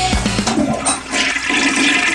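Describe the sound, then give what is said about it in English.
Toilet flush set off by a cat: a few low gurgling knocks at the start, then a loud, steady rush of water that swirls on to the end, with no voices. “It's a cat flushing a toilet.”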